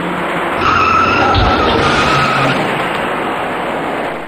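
A car's tires skid in a traffic accident on the Fourth Ring Road main carriageway near Baofusi Bridge, in the outermost east-to-west lane during morning traffic. Loud, sustained screeching with squealing tones rides over a dense roar for the whole clip.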